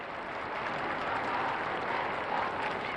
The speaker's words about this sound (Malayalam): പാപ്പ അരമനയുടെ മുകളിലത്തെ നിലയിലുള്ള ജാലകത്തിങ്കൽ പ്രത്യക്ഷനായപ്പോൾ ജനങ്ങൾ തങ്ങളുടെ ആനന്ദം കരഘോഷങ്ങളാലും ആരവങ്ങളാലും അറിയിച്ചു.